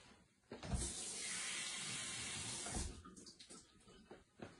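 Tap water runs in a steady hiss to fill a container for a coffee maker, then cuts off, leaving a few irregular splashes and sloshes as the container is rinsed out.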